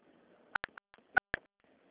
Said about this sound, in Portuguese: Digite a sua senha com 4 dígitos.